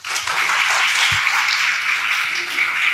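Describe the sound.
An audience applauds to welcome a speaker at an apologetics conference, producing a dense, even patter of clapping that holds steady for three seconds.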